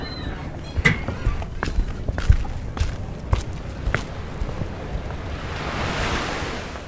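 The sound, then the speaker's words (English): Waves washing onto a small beach bordered by two short piers, a steady surf hiss mixed with wind buffeting the microphone, while a few footsteps crunch along and the wash swells toward the end. “Outside, there's a few stairs down to a small beach bordered by 2 short piers.”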